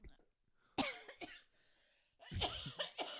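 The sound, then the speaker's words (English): Coughing after choking while trying to breathe and swallow at once: a few harsh, ragged coughs, a short pair and then a denser cluster, faint overall with quiet gaps between. “Are you good? I tried to breathe and swallow at the same time, and I had a problem.”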